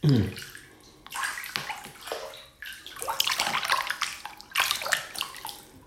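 Water pours into a bathtub being filled for a bath, a steady rushing splash with sloshing and gurgling that swells and eases in waves throughout.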